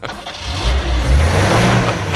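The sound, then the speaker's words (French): A Peugeot 404 car with an unsynchronised gearbox starting off fast: a loud, rough engine roar that builds and holds steady as the car accelerates hard. “Non, mais la vitesse a craqué, donc vous vous rendez compte que la boîte n'est pas synchronisée. C'est une 404 qui démarre sur les chapeaux de roue. 404 Peugeot.”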